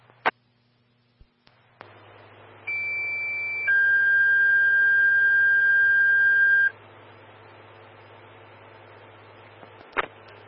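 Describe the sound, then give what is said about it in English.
Fire department dispatch alert tones for Engine 132 at Station 2, sent for a residential carbon monoxide alarm. Two steady electronic tones sound one after the other, the first shorter and the second longer and louder, amid quiet hiss and brief clicks. “Your engine 132, standby for tones, residential carbon monoxide alarm.”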